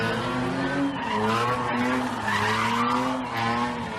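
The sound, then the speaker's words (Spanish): Loud tire squeal and car engines at illegal street races in the city of Málaga: a continuous, wavering high screech over a low engine roar that holds steady for the whole stretch. “Así suenan las carreras ilegales que se venían celebrando en distintos puntos de la ciudad de Málaga, que congregaban a decenas de personas.”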